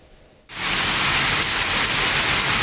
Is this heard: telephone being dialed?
no